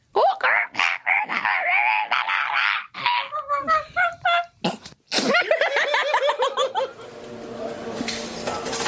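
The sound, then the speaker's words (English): A human voice imitates the call of a blue-winged kookaburra, producing a rapid, loud series of harsh, cackling, laughing squawks that rise and fall in pitch, broken by short pauses. “There's totally different kookaburras, not like the ones down south. These ones got blue wings and the blues, oh, it's like a metallic blue and they sound like this.”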